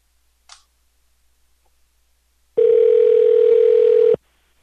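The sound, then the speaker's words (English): A telephone line's steady, loud, unbroken tone sounds for about one and a half seconds and stops abruptly, after a short faint click and near silence. “For all of you out there that want to dial a number. Okay, here we go.”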